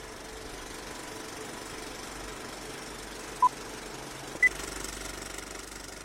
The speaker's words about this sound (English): The projector is warming up, the reels are spinning, and Flick Fix starts right now.